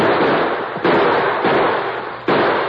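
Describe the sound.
Rifle gunfire in a Western radio drama as riders shoot at the heroes: three sharp, abrupt reports, each decaying slowly, set against a loud, constant rushing hiss.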